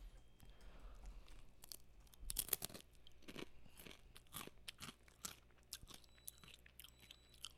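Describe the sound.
Crunching of a soy wasabi flavoured snack chip being bitten and chewed: many sharp, crackly crunches in an irregular rhythm. They stay faint throughout, with a louder cluster partway through.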